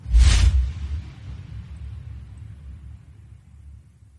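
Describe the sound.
Lightning strike effect in an audio drama: a sharp, loud crack at the start, then a low rumble that lingers and slowly fades over several seconds.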